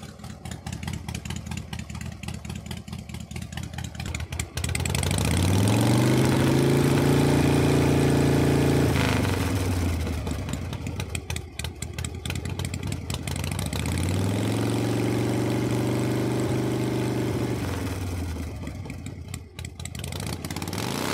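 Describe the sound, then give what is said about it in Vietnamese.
Modified Exciter motorcycles rev at a night street race. Two long throttle blips rise and then fall in pitch over a loud, rough engine rumble, with crackling exhaust pops between them. “Tiếng nẹt bồ, tiếng vê ga của những chiếc xe Exciter đã được độ đủ màu sắc,”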